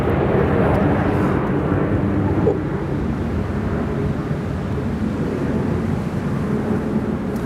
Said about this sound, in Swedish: Ja, nu hör vi dem. Nu hör vi planen. Nu är de rakt ovanför.